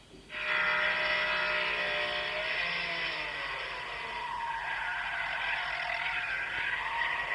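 A Ferrari engine plays from a video: a loud, sustained roar whose tonal whine slides downward in pitch over the first seconds, then settles into a steadier rushing drone.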